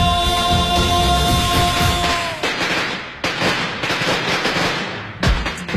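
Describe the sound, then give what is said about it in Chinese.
Strings of firecrackers set off at a noisy celebration make a dense, loud, continuous crackle of rapid pops with no break, and a few sharper bangs stand out near the end. “一场喧嚣热闹的场景渐渐散去，空气中弥漫着浓浓的鞭炮燃放后的火药气息”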